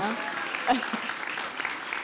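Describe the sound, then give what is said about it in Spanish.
Applause for the interpreters in a Spanish-language conversation, a scattered patter of clapping from a small group with voices mixed in, fairly soft and uneven across the two seconds. “Un aplauso para los intérpretes.”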